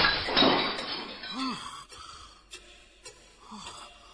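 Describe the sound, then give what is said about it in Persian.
A wardrobe mirror shatters when struck with a clock: a loud burst of breaking glass at the start, followed by a few fainter clinks and tinkles as the noise dies away. “ساعتو کوبیدم با آینه کمون. من آینه اتاق شریف رو شکستم.”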